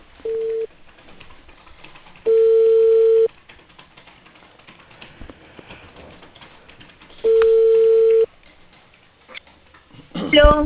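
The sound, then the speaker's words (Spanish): Telephone line tones after a dropped call: three steady mid-pitched beeps, one short and two longer, separated by stretches of faint line hiss, before a voice begins speaking at the end. “se ha hecho corte la llamada. Se cortó la llamada.”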